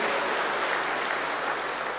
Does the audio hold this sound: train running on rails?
no